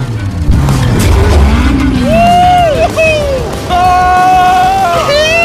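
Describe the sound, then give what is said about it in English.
A loud, expensive car is driven hard on a private racetrack. The engine revs climb and drop through the gears alongside squealing tires, and the sound stays dense and loud for the whole stretch. “There's just something so masculine about driving overpriced, loud cars. On a private racetrack.”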